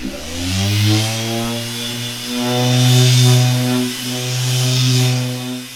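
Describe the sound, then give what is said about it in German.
A band saw cuts parts for musical instruments such as tamburas in the next room of an instrument workshop. Its steady humming whine starts up at first, then holds loud with slow swells in level. “Ein Mitarbeiter poliert eine Körpertambura, währenddessen schneidet im Nebenraum ein anderer an der Bandsäge Einzelteile für die Instrumente zu.”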